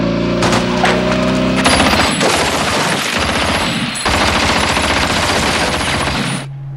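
Gunfire from several guns bursts out after an order to fire, shooting at a motorcycle in a dense, loud, sustained volley of rapid shots that stops abruptly and leaves a low hum.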